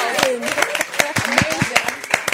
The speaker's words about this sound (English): I love the audience. Put your hands together.